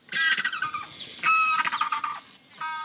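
Loud penguin calls from a breeding island, made by four-kilo birds with golden feather crests. Harsh, braying, squawking bursts come in a few rough, overlapping runs with short pauses between them.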